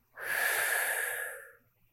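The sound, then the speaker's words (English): A single slow, deep breath during a guided breathing exercise. Soft and airy, it rises quickly, holds for about a second, then fades out in otherwise quiet surroundings. “Another deep breath in. And notice how things become still, slow even. And out.”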